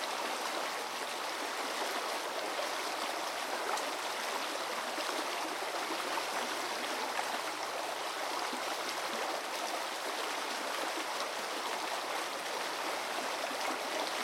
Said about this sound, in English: To explore this underwater sound world, I suspended hydrophones from two fishing rods and immersed them in the river.